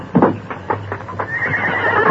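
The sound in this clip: A bronco whinnies in a quick run of wavering calls while its hooves clop on the ground. The sound is loud throughout and ends in a steady, noisy stretch.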